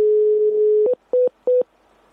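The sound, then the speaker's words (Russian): Steady telephone dial tone as a call is placed, holding for under a second before giving way to three short, evenly spaced beeps at the same pitch. “Вот с этим вопросом я сейчас позвоню моему знакомому физику по имени Андрей.”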